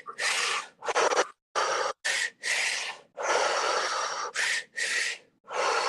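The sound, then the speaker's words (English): Loud, rough, airy breaths come from the belly in a breathing exercise of double inhales and single exhales. They arrive as a series of uneven bursts separated by short silent pauses. “Begin to double the inhale in a single exhale. So a double inhale, single exhale. Again, all from the belly.”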